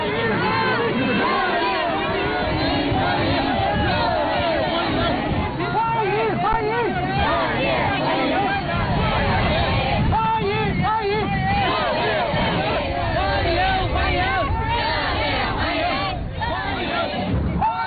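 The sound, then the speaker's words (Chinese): A dense crowd of overseas Chinese and student representatives lines a roadside, waving Chinese and US flags to welcome a visiting Chinese leader's motorcade. Their cheering and chanting voices form a loud, steady babble throughout. “习近平乘车从机场赴下榻饭店途中，华侨华人和留学生代表聚集在道路两旁，挥舞中美两国国旗，热烈欢迎习近平主席到访。”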